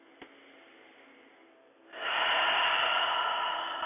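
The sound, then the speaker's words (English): A yoga class inhales and exhales together at the end of a session: soft, airy breath noise that swells partway through into a louder, sustained breathy rush. “Let's all inhale and exhale together.”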